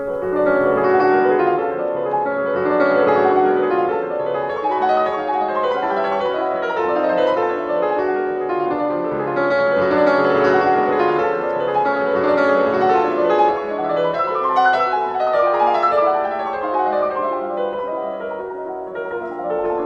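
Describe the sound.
Solo piano plays a prelude in F sharp minor, marked sostenuto: a continuous, loud stream of dense, rapid notes over a sustained harmony, rising and ebbing slightly in intensity throughout.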